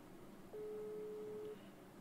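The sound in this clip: A single ringback tone of a telephone call waiting to be answered: one steady, mid-pitched tone lasting about a second, faint over soft background hiss.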